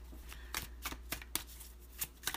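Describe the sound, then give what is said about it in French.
A card drawn from a deck during a card reading about love: several soft, crisp papery flicks and snaps at irregular spacing. They are quiet and sit over a low, steady hum. “Là, premièrement, on va te sortir une carte.”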